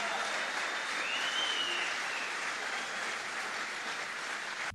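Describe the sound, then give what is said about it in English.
Dense, steady applause from an audience at a political rally, a loud continuous wash of clapping that holds at an even level for the whole stretch before cutting off abruptly at the end. “let's get it going loud enough that Peter will be able to hear us behind the walls of that jail in Miami where he sits tonight.”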